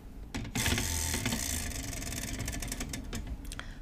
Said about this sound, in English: Okay, I'm ready to spin the wheel.